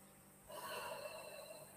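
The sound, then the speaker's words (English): A deep breath in during a guided breathing exercise: a soft, airy inhale begins after about half a second and continues steadily to the end, faint and alone. “So let's take three deep breaths together so we can release any tension and stress that we're currently holding. So breathe in.”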